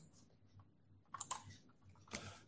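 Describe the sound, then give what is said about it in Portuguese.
Computer keyboard typing: a few faint, short bursts of clicky keystrokes separated by quiet gaps, with no voices. “Também vou digitar isso aqui agora.”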